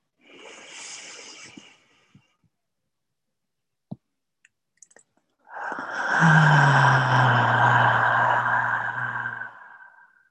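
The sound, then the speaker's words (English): Breathing in during a guided stretching practice: a short breath, then a few faint clicks, and a long, steady, audible inhale that swells and fades. No one talks. “Inhaling,”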